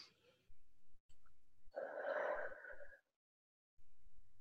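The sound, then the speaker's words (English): A deep breath drawn during a voice-coaching exercise, a single breathy rush lasting just over a second, with quieter low rustles before and after. “Nice deep breath.”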